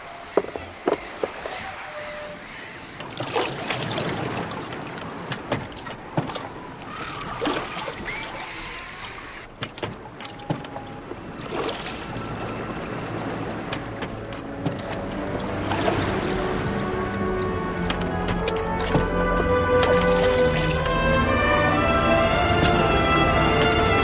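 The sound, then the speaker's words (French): A small boat is lowered from a ship into the sea, heard as irregular knocks, clatter and footstep-like thuds over trickling water. The sound grows denser and louder toward the end. “Mouillez ! Apprêtez-vous, monsieur. On va mettre le canot à la mer.”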